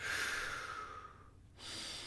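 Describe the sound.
Breathing during a guided meditation: two long, airy breaths, an in-breath and an out-breath, split by a short silent pause. Soft, steady and heard alone, with no talk over it.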